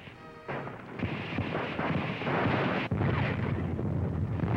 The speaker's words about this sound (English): There's a Nazi dive bomber letting one go.